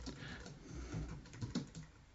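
Soft, rapid keystrokes on a computer keyboard as someone types text into a text editor. The quiet, irregular clicking continues through the short stretch, with a few slightly sharper taps and no voices.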